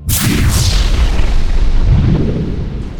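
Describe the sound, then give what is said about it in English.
Heavy booming blasts as a starship fires weapons at a nearby enemy vessel, a hammerhead ship, in a space battle. The blasts merge into a loud, continuous roar with sweeping tones that lasts about three seconds. “She took aim at the closest vessel, one of the hammerheads, and fired.”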